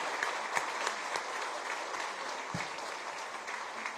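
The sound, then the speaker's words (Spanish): Applause from an audience at the end of a Catholic mass, a dense, steady clatter of many hands clapping together with a few sharper claps standing out, continuing without pause. “Démosle un fuerte aplauso a Juan”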